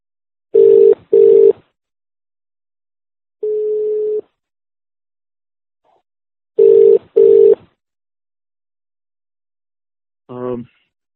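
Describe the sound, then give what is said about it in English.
A telephone ring tone sounds on a conference call line as clean electronic bursts: two short pairs of beeps separated by one longer single tone, then a brief different tone at the end, with silence between. “we just wanted to make sure that the ringing that was going on was had stopped”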